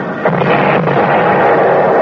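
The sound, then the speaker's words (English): Naval artillery shells land in a dull, continuous roar of heavy rumbling noise, with a couple of faint bursts standing out early on. “Every time a shell lands, they get closer. Wonder what they're using. We ain't got stuff that big in the Army.”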